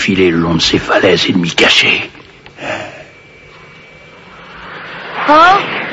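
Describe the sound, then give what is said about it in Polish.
Bulma's airplane from Dragon Ball Z flies past as a steady, droning engine hum with a thin whine, rising between voices that talk before and after it. “Patrzcie, to samolot Bulmy.”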